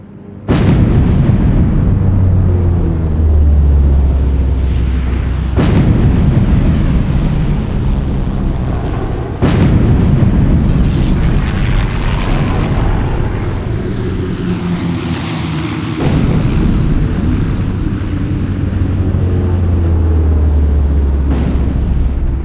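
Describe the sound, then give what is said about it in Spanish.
Reconstructed aerial bombing of a city plaza by naval aviation planes: five sharp, heavy blasts burst through a loud, unbroken low roar of aircraft engines that runs under the whole scene. “Reconstruimos la escena del bombardeo como si fuera en tiempo presente”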